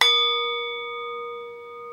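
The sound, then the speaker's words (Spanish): A struck object rings like a bell in a vibration and resonance demonstration: a single sharp hit, then clear, sustained high tones that fade slowly over two seconds. “Por ejemplo, esto es chulísimo, funciona como una campana.”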